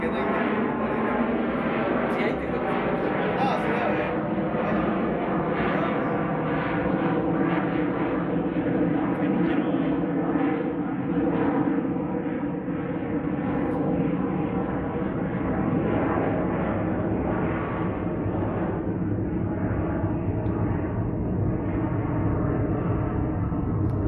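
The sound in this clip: An airplane flies overhead with a steady, broad roar of engine noise. It holds almost constant in loudness for the whole stretch.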